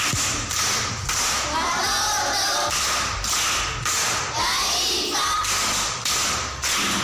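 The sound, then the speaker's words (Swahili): Rhythmic group clapping from an audience at a primary school riddle session, loud and dense, with steady, evenly spaced beats continuing throughout. “Makofi kwa mjomba.”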